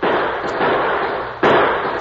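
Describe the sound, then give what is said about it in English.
Gunshots from outlaws' guns, produced as a Western radio drama effect: loud, harsh blasts over a dense, hissing wash of noise, with two sudden jumps in level as fresh volleys break out. “At the first blast from the guns of Ace Durkin's men, the Lone Ranger and Tonto threw themselves behind the only shelter they could find”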